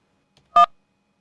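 A single short telephone keypad tone sounds while dialing a call back, a clean, brief beep standing alone in silence.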